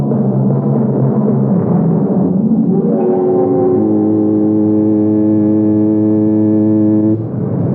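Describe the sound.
Ship's foghorn sounding in fog: a deep, buzzing horn tone that slides upward and settles into a long steady blast, then cuts off shortly before the end.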